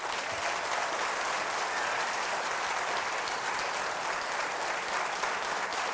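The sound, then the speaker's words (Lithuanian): An audience applauds a guest arriving on an evening show, with dense, steady clapping that holds at an even level throughout and no voices over it. “Pasitikime plojimais.”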